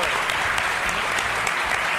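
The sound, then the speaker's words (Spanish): A small audience applauds a host with steady, dense clapping that stays even and unbroken for a couple of seconds. “Y un aplauso para Mario”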